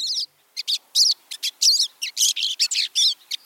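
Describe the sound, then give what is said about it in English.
Pine siskin song: many short, high, wavering twittering chirps delivered in rapid bursts with brief gaps, clear and fairly loud with no other sounds. “Many of the bird sounds you hear on Bird Note, including this pine siskin, come from the Cornell Laboratory of Ornithology.”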